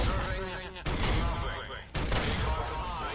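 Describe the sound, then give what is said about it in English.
Rapid 25 mm high-explosive gunfire in a video game, loud dense bursts that roll on continuously and break off for two short gaps before resuming. “am I going to kill this dog? Let's actually just stick with 25 mil and high explosives, since I don't have any pulse weapons. 25 mil high explosives.”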